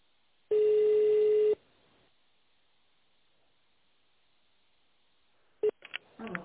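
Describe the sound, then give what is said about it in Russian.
Touch-tone dialing of an extension number on an office phone line: a long steady tone, a stretch of near silence, then a few short, quick keypad tones in succession. “наберите внутренний номер абонента в тональном режиме или дождитесь ответа секретаря.”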